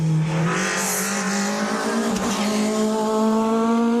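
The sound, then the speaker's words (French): A Peugeot 306 Maxi rally car warms up on a damp track. Its engine gives a loud, continuous, buzzy drone that climbs slowly in pitch as the revs build, with no pauses. “c'est un pilote de rallye qui est un des rares possesseurs de 306 Maxi. Est en train de faire chauffer justement cette 306 sur une piste un peu humide.”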